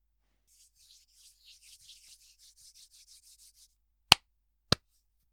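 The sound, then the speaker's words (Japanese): Hands rubbing together in quiet, rhythmic rasping strokes that repeat steadily for several seconds, followed after a pause by two sharp, loud clicks. “まずは手の音を聞かせてあげるね。”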